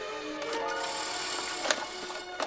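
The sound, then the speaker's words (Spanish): A cassette tape is ejected from a player after its eject button is pressed, giving a couple of sharp mechanical clicks over a steady tonal background. “Aprieta el botón de expulsión.”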